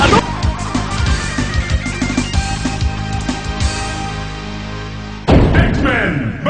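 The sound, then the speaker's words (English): Arcade fighting-game audio from X-Men versus Street Fighter with an optic blast attack: busy game music with many thuds and hits, then a sudden loud burst of effects near the end. “Here you go. Optic blast.”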